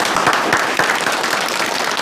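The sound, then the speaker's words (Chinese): Audience applause at a ceremony marking the founding of a coal mining company, a dense, steady wash of many hands clapping that stays loud and even for about two seconds. “来，大家伙儿鼓鼓掌，有请我们山河矿的副总经理潘少景讲话”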